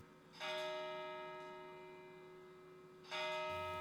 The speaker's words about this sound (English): To his great astonishment, the heavy bell went on from 6 to 7,